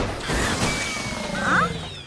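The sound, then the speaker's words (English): A gift wrapping machine in an elves' toy workshop grinding to a stop: a dense mechanical whir and clatter with a brief ratcheting rattle near the end, moderately loud, with no voices. “The gift wrapping machine stops.”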